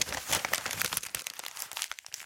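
Paper crumpled by hand gives a dense, crackling crinkle of many irregular sharp bursts, steady throughout, with no voices.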